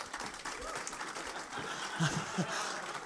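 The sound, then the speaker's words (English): Soft audience clapping at a morning gathering welcoming a guest, faint and steady throughout, with a couple of slightly louder moments near the end. “So why don't we clap him?”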